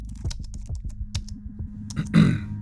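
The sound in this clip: Typing on a computer keyboard while editing a config file: many quick keystrokes in an uneven rhythm over a low steady hum, ending with a louder burst of key noise.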